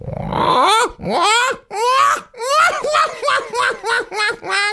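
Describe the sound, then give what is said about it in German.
A human voice imitates a black-headed gull, giving a rapid run of many harsh, wailing, laughing calls that stay strong throughout. “Jetzt kommt eine leise Lachmöwe. Und jetzt wird die leise Lachmöwe ein bisschen lauter.”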